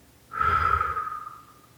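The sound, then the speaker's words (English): A single long, steady breath during a morning breathing exercise, swelling quickly into a breathy rush with a faint whistling edge, then fading slowly, heard alone. “So we'll breathe in for 4, hold it for 4, 1, 2, 3, 4, and then exhale 4.”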